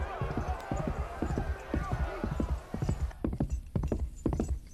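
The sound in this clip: Horse hooves clip-clopping in a quick, steady rhythm, with many hoof beats sounding one after another throughout.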